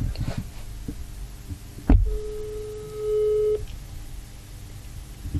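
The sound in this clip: A telephone ringing tone while calling a friend: a dull knock, then a single steady, buzzing mid-pitched ring lasting about a second over a low background hum.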